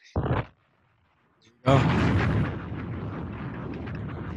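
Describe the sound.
A bomb-drop explosion sound effect: a brief burst, a second of silence, then a loud booming blast that fades into a long, rumbling tail.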